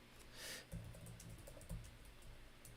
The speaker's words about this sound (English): I'm gonna type it here.